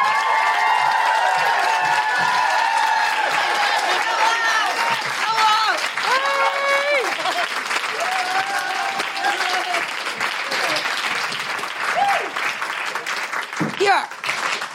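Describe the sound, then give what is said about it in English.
Audience applauding and whooping for a comedian guest: steady loud clapping for about fifteen seconds, with high cheers and woohoos rising over it. “Put your hands together and make incredible woohooing noises for the one, the only, Fern Brady!”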